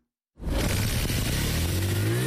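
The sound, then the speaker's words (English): A motorbike taxi (bodaboda) engine starts at a bodaboda stop in Juba. After a moment of silence, a sudden loud roar sets in and holds steady, with a rising whine as the engine revs. “A cyclist starts his motorbike engine to pick up a passenger who signaled for a ride at a bodaboda stop.”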